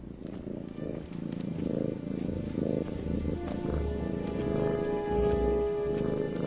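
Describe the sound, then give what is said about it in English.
Steady, low purring rumble voiced for a donkey, running continuously through the whole stretch with a faint sustained tone above it. “I know it was kind of a tender moment back there, but the purring?”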